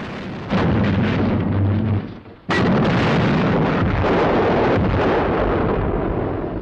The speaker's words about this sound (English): The Amethyst exchanges fire with the guns at the fort.